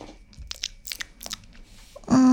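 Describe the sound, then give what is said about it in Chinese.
Someone chews and bites into cake, making a few soft, crunchy mouth sounds spaced irregularly and fairly quiet, with no talking. “我还第一次吃他家蛋糕呢，”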